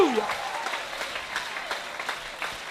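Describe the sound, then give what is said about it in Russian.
Applause from a church audience: a dense, steady patter of many hands clapping throughout, with voices mixed in. “Let's give the Lord a hand. Давайте воздадим Богу аплодисменты.”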